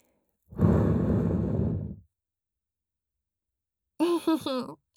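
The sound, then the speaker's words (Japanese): A gentle breath blown into the ear during ear-cleaning roleplay, one long, soft, airy puff that lasts about a second and a half, then a pause and a brief bit of quiet talk. “じゃあ、特別に、もう一回だけ、ふうしてあげる。 じゃあ、行くね。”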